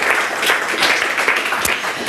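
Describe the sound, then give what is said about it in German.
Audience applause for a stand-in announcer at a stage event, a sustained, dense wash of clapping hands that stays steady and fairly loud throughout. “Einen wundervollen Applaus bitte auch auf unseren Ersatzansager heute, der für mich eingesprungen ist”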